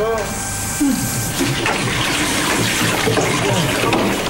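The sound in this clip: Water runs steadily while someone's hair is washed, a continuous, fairly loud gushing wash that barely changes from start to end.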